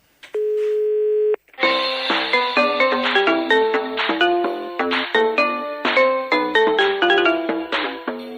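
A phone call reaches an answering machine: one steady electronic beep tone lasts about a second, then after a short gap a bright, plinking synthesized melody of many quick chime notes plays on, loud and alone.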